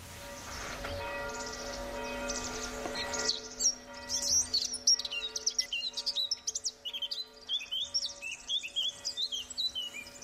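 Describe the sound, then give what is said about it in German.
Eurasian blackcap singing in a home garden, many quick bursts of chirping, warbling notes that begin after a few seconds of soft rustling, with a faint steady hum underneath. “Ja, das ist eine Mönchsgrasmücke direkt bei mir im heimischen Garten.”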